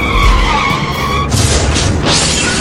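A vehicle skids after running a red light, a loud, sustained tonal tire squeal that breaks into rough, noisy bursts of scraping sound.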